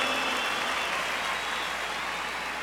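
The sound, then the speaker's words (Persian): Applause for violinist Armen Anasian and his band: a dense, steady wash of clapping that holds at an even level for the whole stretch. “به افتخار آرمن و گروپش. Thank you. به افتخارشون دست محکم.”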